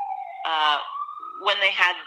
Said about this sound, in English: sorry about the siren